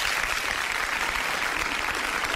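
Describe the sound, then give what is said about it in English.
Audience applause fills the moment, a dense, steady wash of many hands clapping that stays loud and unbroken for about two seconds without voices. “Let's give Sean Williams a round of applause.”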